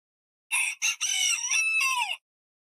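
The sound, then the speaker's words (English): A rooster crows in the morning: one loud, clear cock-a-doodle-doo, two short bright opening notes running into a longer drawn-out call that drops at the end, heard alone against silence. “they just deal with a freaking crow rooster.”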